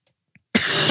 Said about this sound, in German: wir husten im Duett.